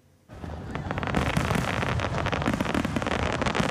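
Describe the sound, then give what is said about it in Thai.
Fireworks from a large display along the coast at Huntington Beach, California, marking Independence Day. After a brief quiet moment a dense, continuous roar of crackling pops starts abruptly and stays loud to the end. “ประชาชนหลายพันคนไปรวมตัวกันบนชายหาดฮันติงตันบีชทางตอนใต้ของรัฐแคลิฟอร์เนียค่ะไปรอชมการแสดงดอกไม้ไฟที่จุดขึ้นอย่างยิ่งใหญ่ตามแนวชายฝั่งบริเวณดังกล่าวค่ำคืนที่ผ่านมาตามเวลาท้องถิ่น”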